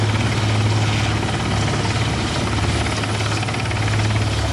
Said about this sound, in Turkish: arama kurtarma uçakları, helikopterler ve termal kameralarla donatılmış insansız hava aracı bölgeye sevk